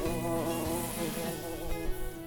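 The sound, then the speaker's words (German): A bee buzzes close by, a steady droning hum whose pitch wavers slightly as it hovers and moves around, lasting throughout with no clear talk over it. “Oh, gerade wollte eine Biene an dich.”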